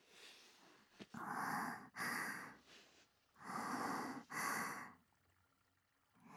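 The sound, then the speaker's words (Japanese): A person sniffs closely at something, drawing in four long, breathy intakes in two pairs separated by a short pause. The sniffs are soft and airy and stand alone, with no talk. “間近で嗅ぎたいって。”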